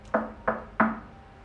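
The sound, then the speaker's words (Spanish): Three sharp knocks on a door, evenly spaced, each with a brief resonant ring that fades quickly, then quiet. “Pero él escucha que alguien toca la puerta 3 veces.”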